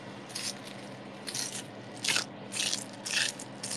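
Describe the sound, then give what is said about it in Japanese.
Meat frying in a pan gives off faint crackling and sputtering sizzles that come in several short bursts over a quiet, steady background. “そしたらですね、次はお肉をね焼いていきます。”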